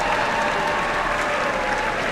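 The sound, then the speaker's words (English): Concert audience applause after a trumpet solo, thick and even clapping from many people that holds at a steady level for the whole stretch. “Keep the applause going.”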